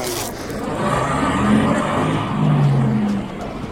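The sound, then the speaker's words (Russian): A bus pulls up on a cold New Year's day. Its engine gives a broad, rumbling rush with a faint whine, swelling and easing over a few seconds. “Подъезжает автобус.”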